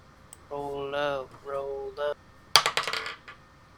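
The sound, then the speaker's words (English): Dice rolled on a table during a tabletop role-playing session: a person speaks first, then a quick burst of bright clattering ticks rattles and settles. “Roll up. First one rolls an 11 on the dice.”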